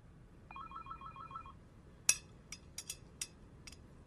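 A telephone rings with a faint electronic trilling tone that lasts about a second. Quiet background follows, then a few sharp, bright clicks and clinks.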